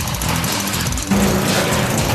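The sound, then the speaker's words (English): A motorized spinning drill weapon bores a hole during a robot build battle, giving a loud, steady grinding whir that jumps louder and gains a low hum about halfway through. “There are no ballerinas on Bowser's team, and they're about to prove it with Sparky's spinning drill weapon. Go!”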